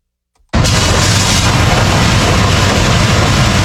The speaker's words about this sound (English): That's the sound of DOT road crews in Cobb County clearing out storm drains ahead of the rains from Hurricane Isaias.